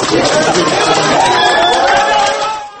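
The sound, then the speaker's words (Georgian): Supporters and relatives shouting outside a Minsk courthouse, a loud, dense crowd of voices calling out together that eases off at the very end. “აი ასეთი აქტუალური შეძახილებით შეხვდნენ სასამართლო შენობიდან გამოსულ ირინა ხალიფს ნოვაე გაზეტას კორესპონდენტს გულშემატკივრები და ახლობლები.”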